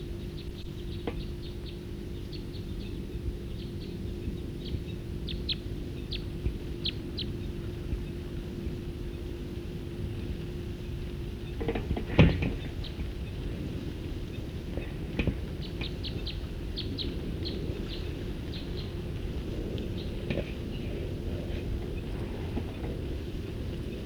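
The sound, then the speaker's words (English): A bird calling in flight, short high-pitched notes repeated in scattered bursts, faint against steady wind noise and a low rumble. “Same bird.”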